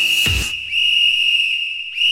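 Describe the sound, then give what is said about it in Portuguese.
A referee's whistle gives one long, steady, shrill blast that lasts the whole clip, with a short dull thump near its start and no voices. “Apito árbitro”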